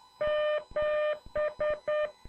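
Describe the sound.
Morse code tones spelling the number seven: two long dashes followed by three short dots, a steady, clear mid-pitched beep heard alone.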